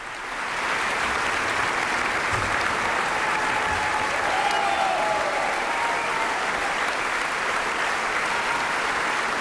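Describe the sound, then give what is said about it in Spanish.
Enthusiastic concert audience in Carinthia applauding and calling back a young pianist after a Mozart piano concerto No. 20 with the Camerata Salzburg; dense, steady clapping rises within the first second and holds evenly to the end. “Y ya escuchamos cómo el público de Carintia, entusiasmado en este concierto celebrado el pasado 2 de agosto, reclamaba al intérprete, al joven pianista Lucas Sternad,”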